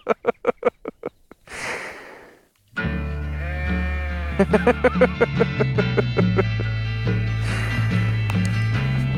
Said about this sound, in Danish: når der står et får bræger 3 meter fra en. Takt fast hver 5. sekund.